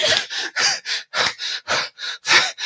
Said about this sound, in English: I'm going to pant for another 12 minutes.